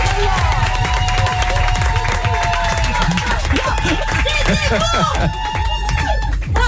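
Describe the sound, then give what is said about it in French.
A studio audience claps and cheers for a returning guest. The loud, continuous applause mixes with whoops and excited voices, and the energy dips slightly near the end. “Je vous demande de l'applaudir.”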